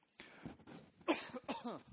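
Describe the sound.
Coughing and throat clearing from a tickle in the throat: a few short, rough bursts, one sharper and louder than the rest, separated by brief quiet pauses, with no spoken words.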